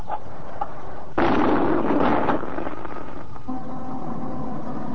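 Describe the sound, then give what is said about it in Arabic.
The iftar cannon fires at sunset in Alexandria, a single heavy boom that bursts out of a quiet background and rolls into a rumbling decay lasting about a second before settling back to a low steady hum. “هنا الاسكندرية وانطلق مدفع الافطار.”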